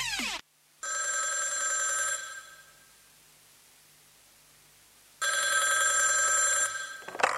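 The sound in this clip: A telephone bell ringing in two long, loud bursts separated by a few seconds of near silence, with no voices.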